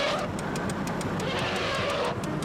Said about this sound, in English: That's how you do the turn signal on this pile of crap.